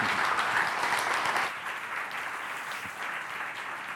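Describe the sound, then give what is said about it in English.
An audience at a church service applauds to welcome a speaker. The clapping is loud and dense at first, then drops to a softer, steady level partway through. “would you please put your hands together and join me in giving Dr. Shawn Duncan a very warm Common Way welcome.”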